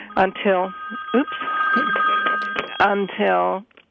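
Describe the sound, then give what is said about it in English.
A telephone rings as the speaker's office calls, its bursts of ringing sounding under ongoing talk, with a steady tone held through the middle. “until my office calling, probably making sure I'm on the phone with you.”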